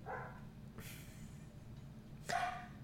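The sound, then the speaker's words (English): Dogs barking at a critter spotted in the backyard: a few short barks stand out over a steady low background hum. “they've spotted another critter in the backyard. It's so funny because they have very specific barks for when they see something in the backyard that they want to eat”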